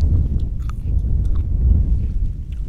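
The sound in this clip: Soft, moist chewing of small wild berries in Hooper Bay, with faint crunchy clicks scattered over a steady low rumble.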